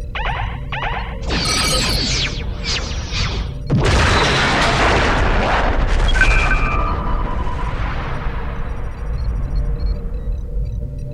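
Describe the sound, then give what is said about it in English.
Sci-fi weapon fire and explosions from a starship firing quantum torpedoes in a space-combat game: a few sharp whooshing bursts, then a loud roaring blast that slowly fades away, with no voices. “Firing quantum torpedoes.”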